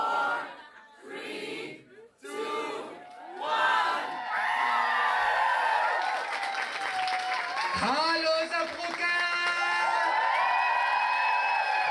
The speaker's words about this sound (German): Or should I say, hallo to Brooklyn! Welcome to Drag Habibi! Oh my god, the crowd today is crazy.